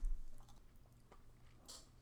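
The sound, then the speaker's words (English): Soft biting and chewing of a white chocolate Kit Kat with multicolored sprinkles. Faint crunches and mouth sounds are scattered through the moment, with one slightly sharper crunch near the end. “This one is white chocolate. And what's really fun about it is it has multicolored sprinkles in it. Like a birthday cake. It's a festive Kit Kat. Yep. Shall we?”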